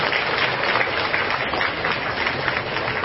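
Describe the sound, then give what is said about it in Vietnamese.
Applause from Buddhist devotees gathered at a temple during its restoration, a steady, dense patter of many hands that holds at an even level throughout. “xin tất cả chúng ta hãy dành một tràng vỗ tay thật lớn, thật mong nhiệt”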